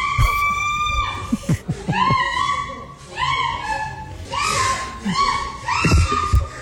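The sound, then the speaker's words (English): A woman shrieks during sex, letting out many loud, high-pitched cries in short bursts, some sliding up or down in pitch, separated by brief gasps. “She's shrieking.”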